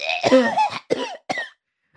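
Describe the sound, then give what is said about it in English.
A voice imitates someone coughing openly without covering the mouth: three harsh, loud cough bursts. The first is longer and voiced, and two shorter coughs follow, then silence. “Because she also doesn't cover her mouth when she coughs. It's just this everywhere.”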